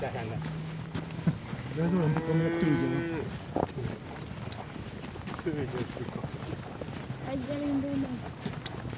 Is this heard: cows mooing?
yes